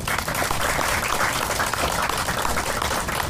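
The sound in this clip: Audience applause for a performer on stage: a dense, steady wash of many hands clapping at an even, loud level from start to finish with no break.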